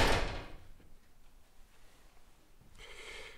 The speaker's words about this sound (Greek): Κλείσε το παράθυρο.